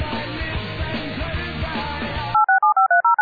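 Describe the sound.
A cell phone number being dialed produces six short, bright keypad tones in quick, even succession. They follow a stretch of dense, rough noise that cuts off abruptly before the tones begin.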